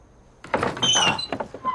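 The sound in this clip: A house door being opened, a scraping, creaking swing with thin squeaky high streaks running through it. It starts suddenly after a short quiet stretch and stays fairly loud for over a second.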